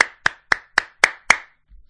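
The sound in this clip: Hands clapping six times in an even, steady rhythm, each clap sharp and loud, followed by a brief faint low rumble.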